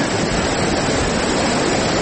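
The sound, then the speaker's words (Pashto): Heavy rushing water of a flood-swollen stream in Dangam district, Kunar, a loud, dense, continuous roar with no breaks or pauses. “د دوی په خبره چې اوس هم په خوړ کې پریمان اوبه بهیږي”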